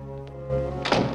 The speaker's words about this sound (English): He knocks on the door.